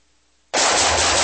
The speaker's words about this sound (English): Whew, nice shooting.